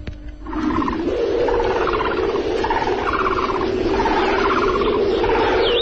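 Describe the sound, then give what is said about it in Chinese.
Birds call from reeds under dark, windy skies: many repeated rough calls rise over a constant loud roar of wind. “小翔不顾一切地还在芦苇丛里录鸟叫。”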